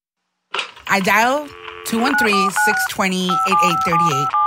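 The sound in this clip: Telephone keypad tones beep through a quick run of dialed digits, each a steady electronic tone, while a voice talks over them.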